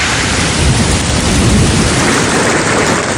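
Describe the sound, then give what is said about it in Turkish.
Thunderstorm with lightning and hail falling over a city after a tornado, heard as a loud, steady, unbroken roar of rain and hail with no separate claps standing out. “Hortumun ardından bu kez gökyüzünü şimşekler kapladı. Kentte kısa süre sonra dolu yağışı etkili oldu.”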